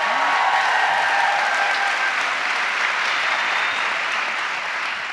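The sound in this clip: Applause from an evening audience at a Chicago event: a dense, steady wash of many hands clapping together, loud and unbroken, fading slightly toward the end, with no talk over it.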